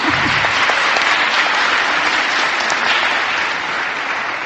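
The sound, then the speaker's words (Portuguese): An audience applauds at a journalism award ceremony as an honorable mention is given for a press article: the dense, steady clatter of many hands clapping holds loud and unbroken throughout. “Podem bater palmas”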